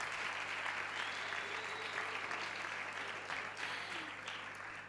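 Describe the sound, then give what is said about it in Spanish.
An audience applauds for singers being introduced, a dense, steady wash of clapping that holds loud throughout and fades slightly toward the end, with no clear voices over it. “Un aplauso, chicos, un aplauso.”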